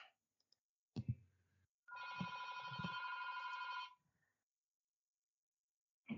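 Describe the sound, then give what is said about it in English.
A telephone rings once with a buzzy, warbling tone lasting about two seconds. A couple of brief clicks come before it, and quiet follows. “okay, someone's ringing. That's me. Sorry.”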